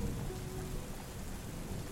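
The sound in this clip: Thunder rumbling during a storm on a dreary, windy day: a steady, faint low rumble mixed with continuous hissing rain and no voices.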